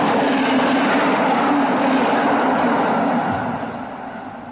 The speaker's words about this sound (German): Die Bahn fährt immer.